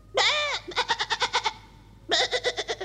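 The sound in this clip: Goat-like animal bleating comes in two loud bursts, each starting with a drawn-out, wavering bleat and ending in a rapid stuttering run of short pulses, separated by a brief pause.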